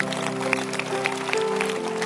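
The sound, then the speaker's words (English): An audience at a church service claps steadily, the dense patter of many hands running throughout over sustained musical tones. “Clap again.”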